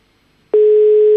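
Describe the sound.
Telephone busy signal on a call that goes unanswered: after a short silence, a single steady mid-pitched tone starts abruptly and holds loud and unbroken to the end, with no voices.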